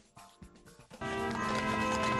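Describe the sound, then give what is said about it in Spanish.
Hooves of horses drawing a carriage that carries a Christmas tree clip-clop briefly at the White House, then give way to a dense, steady wash of louder sound. “La primera dama de Estados Unidos le dio la bienvenida a un carruaje tirado por caballos que portaba el árbol de Navidad que iluminará la Casa Blanca.”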